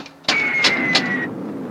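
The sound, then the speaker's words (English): A radio drama sound effect of a rocket ship's front assembly motors starting: three sharp clicks sound over a thin, high whine that cuts off, leaving a low rumble running on. “After jettisoning the first stage of the rocket ship, it becomes a runaway and almost collides with the rocket ship. Prepare to jettison tail section. Start the front assembly motors.”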